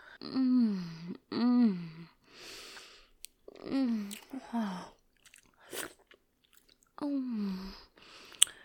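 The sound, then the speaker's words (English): Wet chewing of delicious food, interleaved with several drawn-out, pitch-sliding appreciative moans and soft breaths, the mouth sounds quieter between the hums. “Oh, you have no idea how delicious you taste.”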